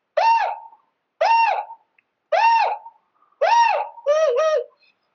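A swan call blown on a game call, pitched on its high note: five loud, hooting, evenly spaced calls, the last a quick doubled note, with no voices.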